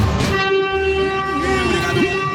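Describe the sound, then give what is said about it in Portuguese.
Train horn blaring inside a tunnel at Piaçaguera: a loud, sustained, chord-like tone held steadily over the low rumble of the moving train. “Vamos lá, vamos buzinar. Buzina aí, meu filho.”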